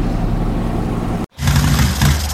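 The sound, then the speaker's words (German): A sputtering motorcycle engine on a cross-country trip gives a loud, rough, steady drone that cuts out abruptly for a moment and then roars back. “Bike's sputtering on me.”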